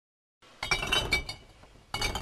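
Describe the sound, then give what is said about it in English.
Glass bottles clink in blue recycling bins at a glass recycling warehouse: a quick cluster of bright, rattling knocks, then a short pause and another burst, fairly loud with no talking. “Twice a month, a dozen or so people lug blue bins full of glass bottles to a warehouse in Coeur d'Alene.”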